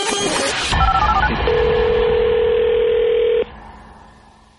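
A telephone number is dialed: a quick run of short keypad beeps, then a long, steady single tone that holds for about two seconds before cutting off. A faint lower tone fades afterward, with no talking.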